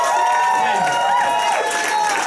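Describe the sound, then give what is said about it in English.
Applause and cheering from an audience welcoming a guest, a dense, steady roar of clapping and raised voices that stays loud for the whole stretch, with a few whooping tones riding on top. “Ladies and gentlemen, how about a big round of applause for our wonderful guest, Mr. Andre the Giant.”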